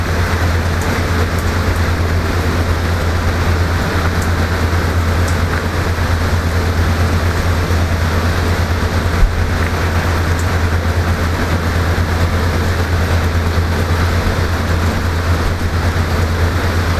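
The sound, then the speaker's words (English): Steady rain falls with ocean surf on a hotel room patio at a South Carolina beach, a constant, loud, even hiss that continues unchanged throughout, with no talk. “I am back again on the patio of the hotel room, and it's raining right now with the sound of the ocean.”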